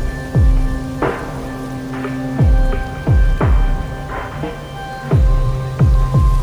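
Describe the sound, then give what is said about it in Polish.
Steady rain hisses without pause, slanting against the windows of small houses. Over the wash, a series of low, downward-sliding dripping tones falls at irregular intervals. “Deszcz mrzeł bezustannie i zacinał skośnie aż do pół okien małych domków”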